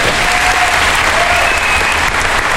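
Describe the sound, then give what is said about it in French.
A standing ovation from an audience greets a performer after a stage appearance before an opening film screening, a thick, sustained roar of clapping that stays loud and even throughout, without pauses. “Après sa prestation, Lucchini sort sous une standing ovation”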